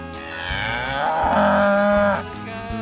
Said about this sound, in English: By God, he's done it. He's fucking a cow. Fucking a cow.